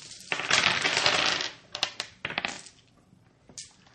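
Many dice rattle and clatter together in a loud, dense burst during a tabletop role-playing game, then a few sharp, scattered clicks follow as the dice settle.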